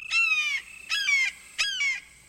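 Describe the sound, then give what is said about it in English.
A male limpkin, a tall dark brown bird streaked with white, gives three loud, harsh wailing calls, each one sliding downward in pitch, with short gaps between them. “A male limpkin has awakened. This relatively tall bird, whose dark brown feathers are streaked with white, stretches and calls again. In the distance, a red-shouldered hawk responds.”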